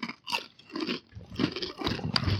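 Crunching of large, ridged, unflattened taco-seasoned chips being bitten and chewed, with several sharp, crackly crunches coming in irregular bursts and no talk over them.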